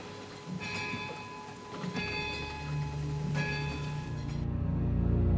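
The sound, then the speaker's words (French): An old clock in a castle strikes midnight: three resonant strokes, evenly spaced, each leaving a ringing tone that fades. A steady low rumble runs underneath throughout. “À minuit pile, l'horloge se met à sonner. Le bruit résonne et traverse les vieilles pierres.”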